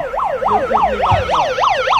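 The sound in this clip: A siren sounds to signal a market sale, cycling in a fast yelp of rapid rising and falling sweeps, many cycles repeating loudly and steadily throughout.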